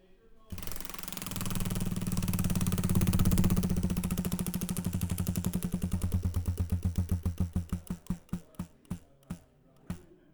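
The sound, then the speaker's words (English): A prize wheel spins with a rapid, buzzing stream of ratcheting ticks that gradually slows into distinct, widely spaced clicks before stopping. “I think we need to spin the wheel. It'll get our brains going.”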